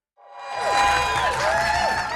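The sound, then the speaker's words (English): Supporters, friends and family cheer at Vancouver International Airport as they welcome three returning travellers. After a moment of silence, loud shouts and whoops swell quickly into sustained crowd cheering. “Cheers fill the airport as Sebastian Tao, Michael Franz, and Mary Grace Matheson are welcomed by supporters, friends, and family.”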